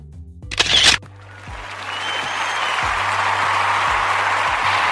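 Camera shutter firing as a photo is taken: a short, sharp burst of clicking that lasts about half a second. A steady, rising wash of noise follows it and continues to the end.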